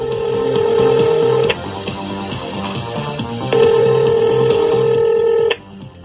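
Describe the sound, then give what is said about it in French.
Telephone ringing on a call to a number in the Toronto area: two long, steady ring tones separated by a pause. “Allez, voyons, je compose au hasard un des numéros dans la région de Toronto.”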